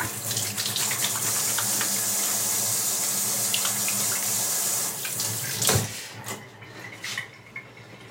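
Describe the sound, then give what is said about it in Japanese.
Tap water running into a sink while hands are washed with hand soap: a steady, bright rush of water for several seconds, then the flow cuts off with a clunk, leaving a few faint knocks and drips. “ハンドソープで、でもちゃんと洗って、”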